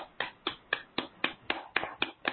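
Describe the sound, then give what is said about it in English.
Hands clapping at chest level, nine crisp sharp claps in an even quick rhythm, moderately loud and alone. “Clap at your heart chakra.”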